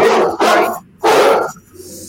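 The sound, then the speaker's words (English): A big dog barks three times, loud and rough, the first two close together and the third after a short pause, then silence. “That was a very big dog.”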